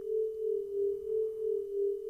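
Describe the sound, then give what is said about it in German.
A steady, mid-pitched pure tone with a gentle pan effect at about one cycle per second, its loudness swelling and dipping in slow, smooth waves. “Jetzt modulieren wir das Ganze noch mit einem leichten Pen-Effekt. Das heißt, mit einem 1 Hertz, mit einer Modulation, um das Ganze nochmal so ein bisschen zu modulieren.”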